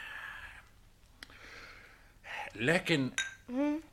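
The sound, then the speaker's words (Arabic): Glasses clink together in a toast: a few brief, bright clinks scattered among voices that talk and let out drawn-out vocal sounds. “كاسك كاسك يا سلطانة. في صحتك يا مولانا.”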